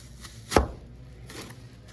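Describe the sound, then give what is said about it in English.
An apple corer is wiggled into an apple, producing one sharp, crisp crunch with fainter soft scraping before and after it, and no talk. “Let's make that stand up straight. You just give it a little wiggle to get it into the apple.”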